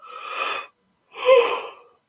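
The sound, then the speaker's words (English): A person yawning: a long breathy draw of air, a short pause, then a second, louder breath with a brief voiced note near its peak. No talking. “But I need to yawn.”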